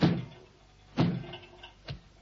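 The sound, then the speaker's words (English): A revolving door spins round with three muffled thumps about a second apart. The third thump is softer than the first two. “The door spun round.”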